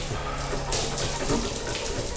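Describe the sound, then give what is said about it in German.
A hot shower runs with a steady hiss of spraying water that stays even for the whole stretch. “Asmo stand eine halbe Stunde unter der heißen Dusche.”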